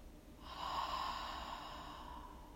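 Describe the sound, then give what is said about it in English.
A single slow breath, soft, airy and drawn out, heard faintly on its own. “Breathe in and out.”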